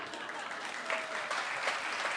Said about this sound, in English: not doing this for applause, doing it because it's right.